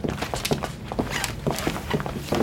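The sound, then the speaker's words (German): Footsteps and soft thumps of staff standing up and leaving a room: many irregular steps, loud and clustered, overlapping one another with no clear rhythm. “Die Mitarbeiter stehen auf und verlassen den Raum.”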